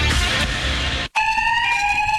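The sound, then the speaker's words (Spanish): An electronic alarm sounds as a loud, steady, high-pitched tone held to the end. It comes in after a brief cut that follows a stretch of harsh, broad hiss. “¿Un sistema de alarma para cuidar tu sorgo?”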